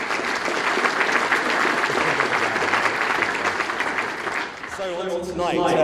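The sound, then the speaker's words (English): Audience applause at an event, given in thanks to sponsors: dense, sustained clapping from a crowd for about four seconds, then easing off as a person starts to speak. “Would you all put your hands together and thank our sponsors?”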